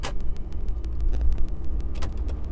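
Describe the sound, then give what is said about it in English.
A car drives along a road toward Windsor, Colorado, its engine and tires giving a steady low rumble throughout with a continuous wash of road noise. “So, this is me driving to Windsor, which I've actually done a lot.”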